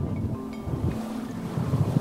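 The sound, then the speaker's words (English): A boat's engine drones steadily while cruising along Old Fort Bay, with wind buffeting the microphone and a faint wash of water throughout. “We cruise along stunning Old Fort Bay.”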